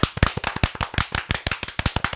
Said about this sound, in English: All right, ready? We're going to clap again.